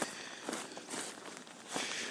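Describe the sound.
Footsteps on a woodland path while stepping around a fallen tree, a few soft, crunching treads at a steady walking pace, faint and without talk.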